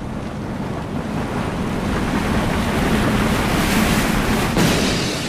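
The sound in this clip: Rushing snowmelt water surging out in a large volume after several warm days, a dense, continuous roar that swells slightly and holds steady throughout, with no voices.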